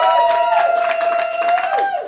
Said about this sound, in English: Give it up for yourselves one more time.